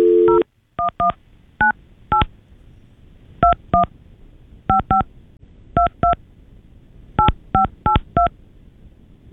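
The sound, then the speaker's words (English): Touch-tone telephone keypad beeps as an international number is dialed, starting with the exit code. Many short, clear tones come alone in uneven clusters of one to three, with brief gaps between groups. “You got to dial 011, which is the U.S. International Exit Code. Yeah. All right. 011. And then you dial 98.”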